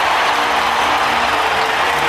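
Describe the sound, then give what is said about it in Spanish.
Loud, unbroken applause greets a guest's entrance at a gala event, a dense ovation of many hands with no individual claps standing out. “Atención, un aplauso. Ahí está.”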